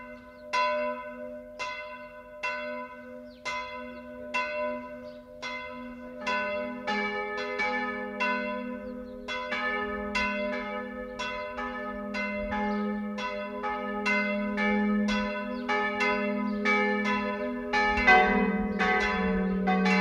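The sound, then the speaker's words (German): Church bells of a Bavarian minster in Fischbachau ring in a peal of many steady, overlapping strikes. The sound grows fuller and louder as more bells join, with no voices. “Das Geläut vom Martinsmünster Fischbachau ist nur eines von Tausenden im Archiv des Bayerischen Rundfunks.”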